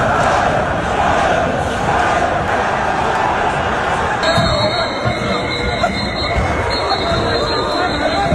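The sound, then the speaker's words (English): Chaotic crowd in a downtown street during a police dispersal operation, with constant shouting and babble at a loud, even level; a high steady electronic tone cuts in during the second half. “That's not the sound of celebrating. That's the sound of chaos in the middle of the street, in the middle of downtown.”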